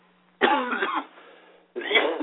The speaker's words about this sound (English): Excuse me for coughing there.